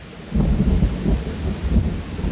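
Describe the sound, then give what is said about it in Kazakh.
Thunder rumbling through a heavy rainstorm over the mountains. A deep, rolling low rumble swells and eases under a constant hiss of falling rain. “аспан қақ айырылғандай шатыр-шұтыр етіп найзаға жарқылдай.”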